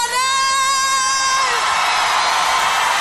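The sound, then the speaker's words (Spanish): Crowd applause and cheering at the Auditorio Nacional: a long, high whoop rings out first, then a dense, loud wash of clapping and cheering fills the rest. “Luna hermosa, mira cómo te aplauden aquí en el Auditorio Nacional.”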